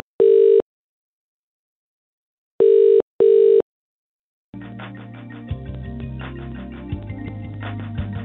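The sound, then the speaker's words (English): Three steady, identical beeps sound on a telephone line as a call to a helpline is cut off: one short beep, a pause, then two close together. A continuous, busier tonal sound with no speech follows. “Several callers said they have tried and been cut off. Well, I tried the number over the space of 2 hours today, and each time this happened.”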